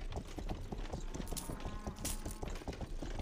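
Horse hooves clip-clopping as the animal pulls a plowing cart in a video game, a quick, steady run of many soft thuds at low volume.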